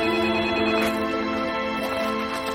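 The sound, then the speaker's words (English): A telephone rings with a steady, continuous bright electronic trill that holds at an even, fairly loud level for the whole clip, with no voices. “She takes her gloves off and answers the phone.”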